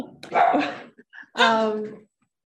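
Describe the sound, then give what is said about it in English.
A pet dog barks twice, fairly loudly and with no talk over it. The first bark is rough and noisy. The second is longer and more tonal. “Sorry. That's my dog.”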